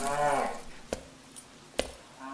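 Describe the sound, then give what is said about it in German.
A cow moos once in a barn, a short low harmonic call at the start, followed by two sharp knocks over quiet background noise. “ich glaub, hier liegt noch ein Rind.”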